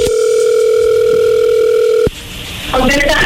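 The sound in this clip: A telephone dial tone plays while a call is being placed. The loud, steady, continuous tone holds for about two seconds, then cuts off abruptly and gives way to noisier line sounds.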